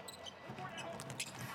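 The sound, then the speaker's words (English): Basketball dribbled on the court during a Utah Jazz game, with faint, quick bounces heard under a steady wash of arena crowd noise. “Brantley, very good with the dribble.”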